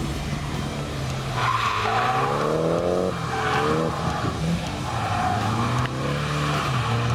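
Tyres squeal as a Nissan Silvia S15 spins, with the engine revving underneath. The loud, continuous skid holds steady throughout, and the engine note climbs and dips a few times.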